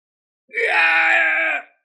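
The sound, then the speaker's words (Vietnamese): A man screams in agony: a single loud, strained cry held for about a second, with a harsh, sustained tone and nothing else around it. “Thánh chủ Vạn Sơ hét thảm một tiếng, nửa người nát bấy, lập tức bỏ chạy như gặp quỷ vậy.”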